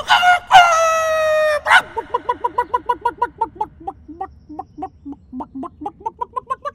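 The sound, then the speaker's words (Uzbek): A rooster crows loudly in one long, harmonic-rich call, then breaks into a long run of rapid, evenly spaced clucks. “Xo'roz esa devorga uchib chiqib, baland ovozda qichqira boshlabdi.”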